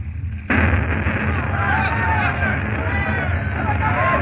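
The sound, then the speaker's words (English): A house explodes during a spreading blaze, with thousands of grenades and guns stored inside: a sudden, loud blast breaks in after a brief quiet moment, then gives way to a dense, sustained roar that stays loud to the end. “Whole place blew up.”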